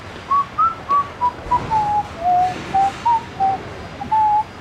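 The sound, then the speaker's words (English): A man whistles a folk tune while walking around a site: a string of short, clear, evenly paced notes wandering up and down. A steady background hiss runs beneath. “Reynolds pockets the walkie-talkie and starts walking around the site, whistling Get Along Home, Cindy.”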